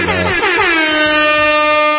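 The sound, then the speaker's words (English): A single loud air horn blast holds for about two seconds, with a brief settling of pitch at the onset before a steady blare. “Air horn. That's all could have been stopped right there.”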